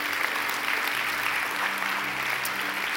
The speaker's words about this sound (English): Can we just put our hands together today and welcome some people into God's family?